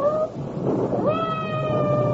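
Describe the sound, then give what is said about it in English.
A cat meows twice. The first call is short, then after a pause comes a longer, drawn-out meow that holds a steady pitch. “I hope that cat isn't trapped somewhere.”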